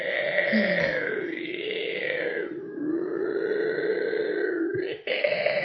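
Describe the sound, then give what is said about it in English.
A human voice imitates the giant scorpion's noise from the film Black Scorpion with a long, continuous, rasping, growling drone that wavers slightly in pitch, then breaks off briefly and resumes. “I think it's like Black Scorpion or something, and they all do like this like actually I think that's the one where the scorpion actually makes a noise like this the whole movie.”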